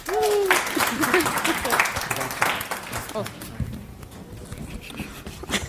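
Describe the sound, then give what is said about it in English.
Applause from an audience at a FOSDEM conference talk, dense and steady clapping that holds for several seconds with a brief voice near the start, then thins slightly toward the end. “So give a hand for them.”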